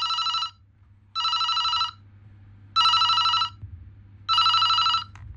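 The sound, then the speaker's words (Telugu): A telephone rings in four evenly spaced bursts of bright, buzzing electronic tone, each about half a second long, with a low steady hum beneath and no talking. “ఇదిగో hello, ఆయన గారిది ఈ phone call.”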